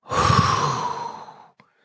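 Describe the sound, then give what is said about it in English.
Someone blows out a deep breath during a guided breathing meditation, producing a single loud, breathy exhale that lasts about a second and a half before fading. “So deep breath in. Blow out the contents of the mind.”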